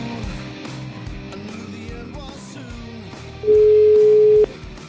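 A telephone call rings with a single steady, loud tone lasting about a second, over a faint continuous background.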